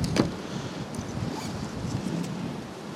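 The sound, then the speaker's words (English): Strong wind buffets a microphone. A steady low rumbling roar carries a broad hiss and small gusty swells throughout, with no voices. “That's a fucking wind.”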